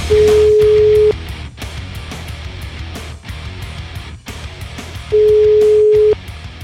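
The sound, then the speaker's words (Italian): Telephone tone of an outgoing call: two steady, mid-pitched one-second beeps about four seconds apart, over a low murmur of background noise. “Aspetta, che devo chiamare questo qua”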